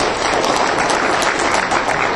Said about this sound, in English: You'll hold your applause to the end of this lap.